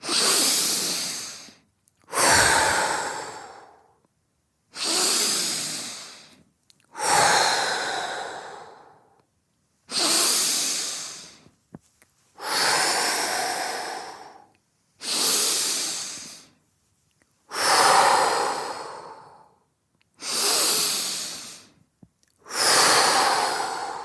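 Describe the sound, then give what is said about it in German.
Forceful breathing in through the nose and out through the mouth during a guided breathing exercise: ten loud, hissing breaths in a steady, even rhythm, each separated by a short pause, with no talking. “du 5-mal kräftig durch die Nase ein und durch den Mund aus.”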